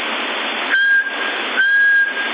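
A person whistles into a CB radio microphone. Two short, steady, high whistled tones come through thin, band-limited radio audio, with a constant hiss before, between and after them.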